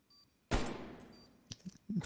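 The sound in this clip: Video game gunfire: one loud blast that decays slowly, then a few shorter, sharper shots in quick succession near the end.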